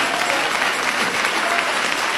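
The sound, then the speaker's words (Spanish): A church audience applauding in praise, a thick wash of many hands clapping at a steady, fairly loud level for about two seconds without a break. “Dale ese aplauso de alabanza a Cristo.”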